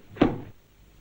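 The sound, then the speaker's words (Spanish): A door is pulled shut by its knob in a single dull, muffled thud. The knock is brief and fades within a fraction of a second, leaving near-silence. “Agarra el pomo de la puerta con dificultad y al cerrar retumba en sus oídos.”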